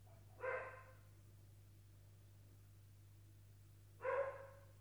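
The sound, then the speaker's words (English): A dog barks at other dogs walking past, two faint barks about four seconds apart over a quiet, steady background. “That's my dog. It's okay, I have two, it'll happen. Yeah. I don't know what he's barking at, but hopefully he shuts up. Oh, he's barking at dogs walking past.”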